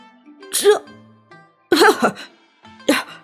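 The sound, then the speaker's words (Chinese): Awkward, embarrassed coughing from an elderly maidservant: a few short, voiced throat-clearing bursts spaced about a second apart, moderately loud, with no other talk. “刘嬷嬷尴尬地咳了一声，”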